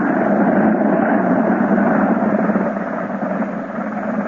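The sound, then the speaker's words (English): An airplane's engine drones steadily after a quick three-point landing, a dense, continuous roar that drops slightly in level past the midpoint and holds there to the end. “Quick landing, fellas. Nice three-point landing, too.”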